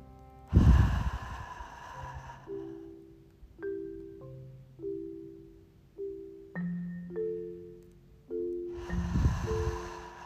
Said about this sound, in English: I'm going to breathe in through my nose. Exhale through my mouth.